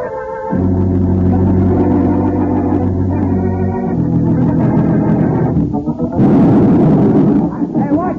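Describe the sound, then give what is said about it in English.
Dynamite blast set off at a construction site in a radio drama: a loud, sustained rumbling roar with a steady droning hum underneath, breaking into a harsher, brighter burst near the end. “Put too much of a charge in that one.”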